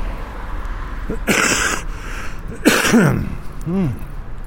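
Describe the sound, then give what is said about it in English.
A person coughs twice. Each cough is a harsh, breathy burst, fairly loud, over a steady background murmur. “Wow, I've got the coughs today.”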